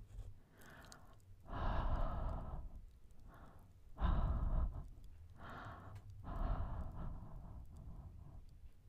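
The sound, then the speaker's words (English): Warm breath blown onto an object to warm it, several slow, soft exhales in a quiet, breathy hush, with calmer pauses between them. “I'll warm it up with my breath.”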